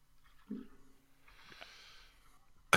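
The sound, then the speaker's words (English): A speaker takes a breath: a short nasal snort, then a longer, quiet breathy inhale. “Well, I have to breathe once in a while. I can't just rant the entire time.”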